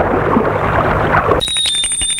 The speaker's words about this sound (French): Et l'oncle va sonner à la porte de la maison.